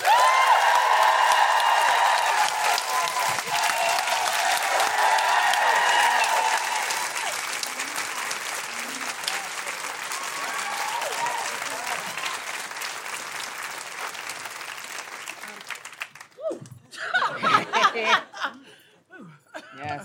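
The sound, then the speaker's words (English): A fringe comedy audience applauds and whoops to welcome a stand-up comedian. The clapping is loud and dense with bright cheers on top, then thins and fades after about fifteen seconds as a voice starts to talk over scattered last claps. “Please welcome, with general woohooing, Dana Alexander!”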